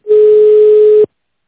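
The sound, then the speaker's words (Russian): A telephone ringback tone sounds while a call is transferred: one steady, flat, mid-pitched beep of about a second, followed by silence. “Выполняется перевод вызова. Ждите на линии.”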